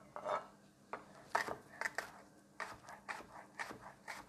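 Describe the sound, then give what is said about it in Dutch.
A knife slices a vegetable into small rings on a board, using both its white and green parts: many faint, quick chopping taps and light scrapes in an irregular rhythm. “Deze snijd ik even in kleine ringetjes. Ik gebruik zowel het witte als het groene deel.”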